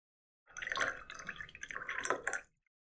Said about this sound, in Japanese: はい、注ぐよ。